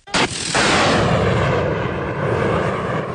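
Anti-aircraft artillery fires at a simulated incoming aerial target during a gun unit's drill. Two sharp, loud blasts come in quick succession and run into a long, heavy roar that stays loud throughout.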